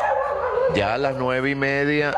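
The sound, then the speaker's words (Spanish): A dog kept at home with several other dogs and cats gives a loud, drawn-out whining yelp with a tonal, voice-like quality, lasting over a second after a short quieter stretch. “tengo aquí perras, perros, gatas y gatos y eso arman un problema.”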